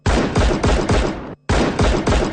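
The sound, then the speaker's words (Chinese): A volley of gunshots rings out at an execution: loud, sharp blasts fire in rapid succession, break off for one brief pause, then resume at the same pace. “一串邪恶的枪声过后”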